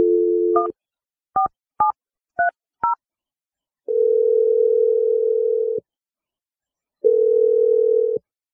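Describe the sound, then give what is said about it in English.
A steady telephone dial tone as a number is dialed: the hum breaks into five short keypad tones, then two long ringing tones sound with a gap between them. “We're going to dial his number right now.”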